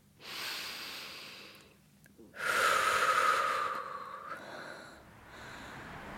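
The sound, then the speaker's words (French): A person takes a deep breath outdoors: a long airy inhale, a short pause, then a louder, hissing breath that slowly tapers, followed by softer breathing and no talk. “Respire un coup, allez.”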